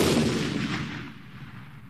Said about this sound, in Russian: Раздались оружейные выстрелы у Спасских ворот.